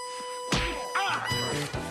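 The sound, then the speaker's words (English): A punch to the face lands as a sharp, loud thwack over a steady tonal background. Several shorter, rougher knocks and scuffles follow. “As he looks, she punches him in the face.”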